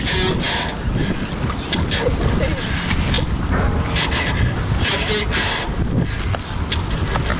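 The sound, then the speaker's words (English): Churning, sloshing water noise as a working replica of the Turtle submarine is driven in the Mystic River in Connecticut during a 2008 test, a steady, rough wash with scattered splashy bursts throughout. “That's the sound of someone driving a working replica of the Turtle.”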